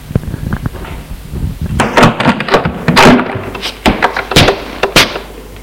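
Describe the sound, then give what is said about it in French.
A door is opened, heard as a string of sharp knocks, clunks and rattles at irregular intervals, some loud and some softer. No one speaks. “Il ouvre la porte.”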